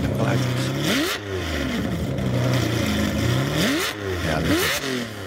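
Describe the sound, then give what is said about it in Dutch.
A Ferrari V12 engine of about 580 hp, taken from a crashed Ferrari 612, revs with several sharp rising and falling sweeps over a steady rumbling idle, loud throughout. “ligt een eh, Ferrari V12 met een vermogen van... 580 pk als je hem openzet.”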